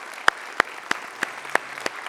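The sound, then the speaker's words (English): Sharp, evenly spaced claps greet first-time guests at a church service, a steady series of crisp hand claps with no voices. “Can we give it up for all of our first-time guests today?”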